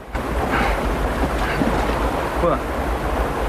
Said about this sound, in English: Wade, also in a life vest, watches them from the back of the boat. Wade spots the water churning up ahead.